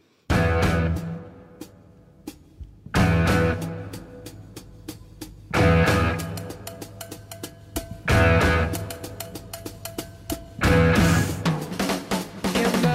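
A rock drummer plays a full kit with five heavy crash accents at regular intervals. Between them come quick fills of snare and tom hits, with a loud cymbal wash that decays after each accent.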